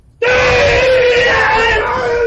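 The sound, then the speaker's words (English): A karate fighter's loud, sustained scream, a single strained yell that bursts in abruptly and holds at a steady, fairly high pitch for about two seconds, alone with no talk. “Now, the screaming, this is to increase power, to try to frighten your opponent and give added strength to your techniques.”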